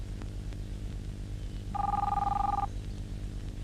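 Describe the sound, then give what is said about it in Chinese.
A telephone bell rings once in a single steady buzzing burst of under a second, with a low hum underneath. “你不想接电话？”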